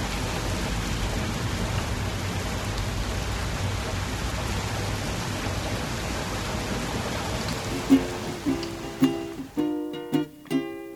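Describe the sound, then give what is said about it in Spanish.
Rain falls as a steady, even hiss of dense drops. Near the end, a few plucked musical notes enter over the rain. “Lluvia, llueve y llueve y llueve.”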